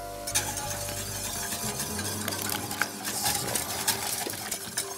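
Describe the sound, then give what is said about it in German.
A spoon or whisk stirs eggs into hot cream in a pot while making crème brûlée. Soft scraping mixes with a few light clinks against the metal, over a low hum at the start. “So, und rühre die Eier jetzt rein.”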